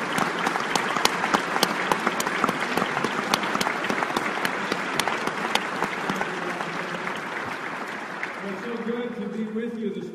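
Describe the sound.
Warm audience applause welcoming a speaker at First Baptist Charlotte church: dense, steady clapping that carries on throughout and eases slightly toward the end.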